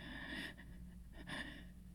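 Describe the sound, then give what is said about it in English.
A deep breath drawn in during a slow guided breathing exercise: two airy, hissing breath sounds about a second apart, each swelling and fading, with a quiet hum underneath. “Breathe with me. Come on. In.”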